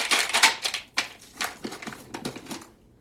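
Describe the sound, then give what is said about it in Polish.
Mechanical keyboard switches, TTC Bluish White and WS Heavy, clack as keys are pressed with no case around them. A quick run of sharp clicks thins into scattered, quieter taps. “Mam tutaj jakieś TTC Bluish White i WS Heavy. Tak, to jest WS Heavy teraz. To brzmi tak, bez żadnej obudowy.”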